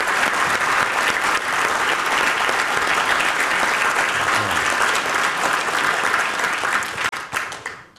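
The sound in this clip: Sustained audience applause follows the introduction of a speaker at a talk before a Q&A. It is a loud, even wash of many hands clapping that holds for several seconds, then thins and tapers off near the end.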